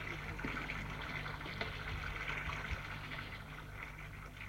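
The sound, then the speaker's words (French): Water runs steadily into a bathtub as it fills, a faint, constant rushing hiss over a low hum that stays even throughout without pauses. “Une fois que la baignoire est remplie, il rentre dans la baignoire.”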